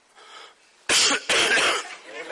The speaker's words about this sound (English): Coughing. Tosiendo.